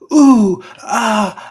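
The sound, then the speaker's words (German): Groaning and moaning voice imitating a video game heroine: two drawn-out, loud vocal moans, each sliding downward in pitch, with a short pause between them. “die jammert, schreit und stöhnt in dem Spiel mehr als Monika Seles beim Wimbledon in den 90ern. Ja. Ja, kannst du dir nicht vorstellen? Sie immer so,”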